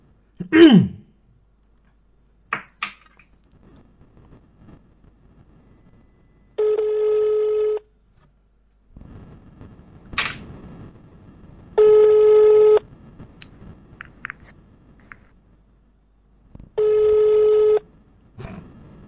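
Ringing tone of an outgoing telephone call: three evenly spaced buzzing tone bursts of about a second each, with scattered clicks and low background noise in the gaps between them.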